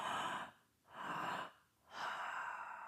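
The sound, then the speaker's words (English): A soft breathing exercise of two inhales for every exhale: three airy breaths, two short ones and then a longer one, heard alone. “take two inhales for every exhale, just like this.”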